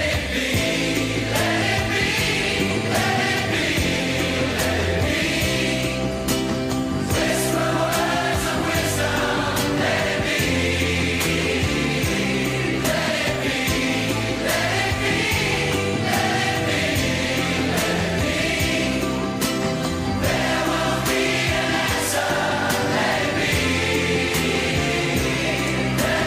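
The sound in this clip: A charity pop single recorded by a mixture of artists plays as full-band music with a steady, driving beat and dense layered instruments throughout.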